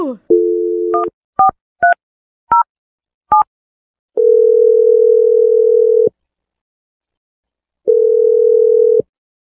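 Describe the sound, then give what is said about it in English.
Telephone dial tone while a number is called: a short steady tone, then a quick series of keypad beeps at varying pitches, followed by two long, even ringing tones separated by a pause. “I'm going to dial Scarlett's number right now.”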